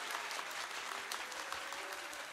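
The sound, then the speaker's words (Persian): Steady, dense hand clapping from a group at a Persian devotional celebration honoring Imam Ali, loud and even, continuing without pause through the whole clip. “همونطوری باید دست بزنی ماشاءالله”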